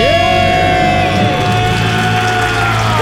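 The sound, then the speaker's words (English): People scream and cheer loudly in a sustained, high-pitched burst, celebrating becoming debt-free, with overlapping shouts and whoops continuing at full volume throughout. “Count it down. Let's hear a debt-free scream.”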